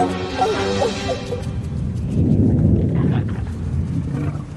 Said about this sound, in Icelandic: Þetta voru örugglega bara þrumur, en neðan jarðar?